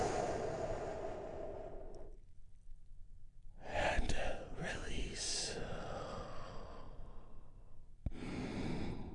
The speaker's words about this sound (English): we do that by taking a big, deep, healing breath all together. Here we go.